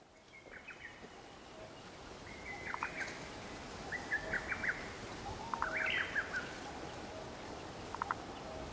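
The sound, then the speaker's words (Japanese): Calls of lesser cuckoo, common cuckoo and Japanese bush warbler in late May in the Komado marsh, spanning Showa village and Minamiaizu in western Fukushima. Several short call phrases ring out over a steady low rumble. “ホトトギスやカッコウ、そしてウグイスの鳴き声が響きます。”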